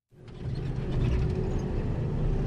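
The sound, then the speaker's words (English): Steady low engine rumble of an armored vehicle with machine guns mounted on top, travelling with African Union peacekeeping soldiers near Mogadishu; the noise starts abruptly and then holds as a constant, moderately loud drone with no voices. “Traveling in an armored vehicle with machine guns on top, and next to me some Burundian soldiers from the African Union peacekeeping force.”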